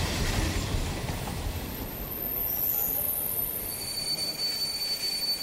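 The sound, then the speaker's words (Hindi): Wheels of the Shatabdi Express squeal at platform three: sustained high-pitched screeching tones ride over a rough rumbling rail noise, steady in level throughout, with no voices. “यात्रीगण कृपया ध्यान दीजिए platform क्रमांक तीन के किनारे से हट जाइए गाड़ी क्रमांक दो दो दो दो शताब्दी एक्सप्रेस प्लेटफॉर्म क्रमांक तीन से रवाना होने वाली है”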